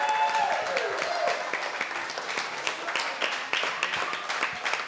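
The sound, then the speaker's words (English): Audience applause and cheering for two Baltimore Ravens football players at a live show: dense, steady clapping that keeps going throughout at an even level. “would y'all please make some more noise for Tyus Bowser and Pat Ricard?”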